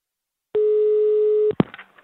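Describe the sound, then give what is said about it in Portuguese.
A telephone tone while placing a call: one steady, pure electronic tone lasting about a second, cut off by a sharp click and a brief clatter. “vou ligar pra Leila.”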